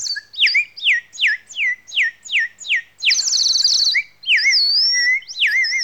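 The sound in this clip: Nightingale song, loud and clear on its own: a rapid run of about ten repeated descending whistled notes, then a dense buzzy trill, followed by long looping pure whistles.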